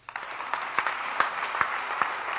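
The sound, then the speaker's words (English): An audience claps for a woman in a modest round of applause, with sharp individual claps striking at a fairly regular pace over a soft, steady patter. “clap your hands for her.”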